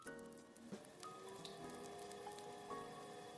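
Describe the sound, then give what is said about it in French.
A huge professional kitchen oven starts up as it preheats to 180 degrees. It gives a faint, steady hum broken by a few soft ticks and crackles. “Là, vous entendez mon gros four, énorme four professionnel, qui est en train de se mettre en route.”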